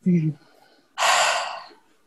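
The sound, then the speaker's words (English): A group takes a breath together at the opening of a gathering before a prayer. A short voiced sound comes first, then a single broad, airy breath that swells, holds for under a second and fades. “I just wanted to also take a breath all together and say a little prayer.”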